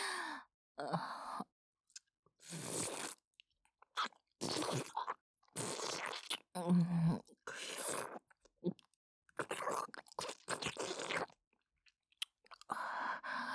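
Wet chewing and crunching from someone eating rich-flavoured food greedily, in many irregular short bursts separated by brief pauses, with a soft breathy sigh-like exhale among them.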